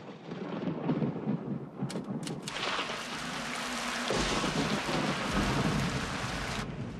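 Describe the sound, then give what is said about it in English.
Heavy rain pours down outside in a loud, continuous hiss of drops striking surfaces, with a deep rumble of thunder rolling in partway through and swelling the low end. “As rain pours down outside”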